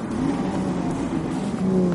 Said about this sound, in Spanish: Los dos deportivos se detienen frente a los espectadores.